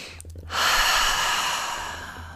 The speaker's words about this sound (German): dann atme tief ein, tief aus